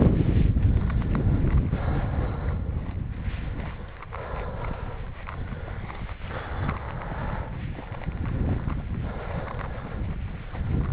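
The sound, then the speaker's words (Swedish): Headwind blowing into a microphone while someone walks a bicycle: a steady, loud, low buffeting rumble with gusty swells that runs the whole way through, with no talk. “Går med cykeln. Motvind blåser i mikrofonen. Som ni hör.”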